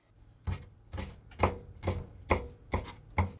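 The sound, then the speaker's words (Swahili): Knife chopping raw prawns into pieces about one centimetre long on a board: seven crisp, evenly spaced chops in a steady rhythm, each a short thud with a sharp click, fairly quiet. “Katakata kamba kwa urefu wa sentimita 1 kiukubwa na waweke chumvi kiasi na pilipili manga.”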